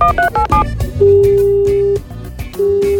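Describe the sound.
Telephone dialing: a quick run of short keypad beeps, then a long steady ringback tone, a brief gap, and a second ring beginning over low background sound.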